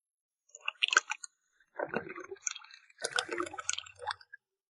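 Corn kernels and cooking oil are poured into a popcorn machine in three short, quiet bursts of rattling, squishing and liquid filling, with silence between them.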